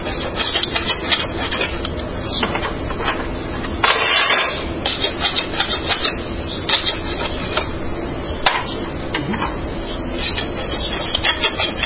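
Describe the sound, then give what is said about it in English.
Rasp filing: many rough, rhythmic scraping strokes run back and forth throughout, each a coarse, gritty rasp of fairly even loudness, with no voices. “So now we're filing.”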